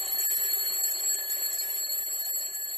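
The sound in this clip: An alarm clock rings in a continuous, shrill, steady high-pitched ring that stays loud and even throughout, with no voices.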